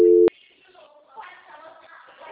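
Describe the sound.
A telephone busy tone after a dropped call: one short, steady electronic beep at the very start, then quiet, with faint talk continuing underneath.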